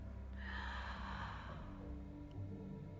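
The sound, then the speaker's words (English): A deep breath drawn in, then a slow controlled exhale during a guided meditation, soft and airy throughout. “Take in a deep inhale and slowly with control, exhale it out.”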